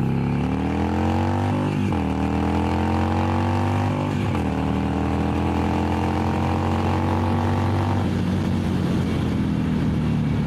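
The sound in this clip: A Sportster 975 motorcycle accelerates through first, second and third gear, its loud engine note climbing steadily and dipping briefly at two gear changes before pulling on without any talk.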